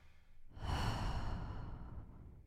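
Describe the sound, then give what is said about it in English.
A single deep breath during a guided relaxation exercise, a long airy rush of air that swells quickly and then fades out slowly, soft and alone with no talking. “And another deep breath. In and out.”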